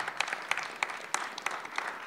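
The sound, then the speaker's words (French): Faint, scattered audience applause during thank-yous at an evening event held at a university, with many separate sharp claps standing out from a soft background. “Si vous applaudissez tout le monde, on ne va pas tenir les délais.”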